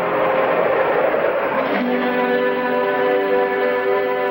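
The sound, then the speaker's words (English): A police patrol car drives down a lane beside headquarters and pulls into the police parking lot, with a steady engine rumble and road noise that settles into a lower, even hum partway through. “Patrol car drives down the lane beside headquarters and pulls into the police parking lot.”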